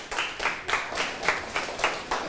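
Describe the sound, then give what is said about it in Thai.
A school class claps for classmates after a group answer. The clapping is faint and rhythmic, with many even bursts in a steady pulse and no voices. “ปรบมือให้เพื่อนหน่อยครับ”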